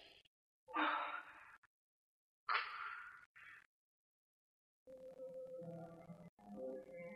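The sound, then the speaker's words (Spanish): Heavy, breathy gasps from a person sitting down and trying to catch their breath: a few separate rasping breaths, with quiet pauses between them. “Alex se sienta tratando de recuperar el aliento.”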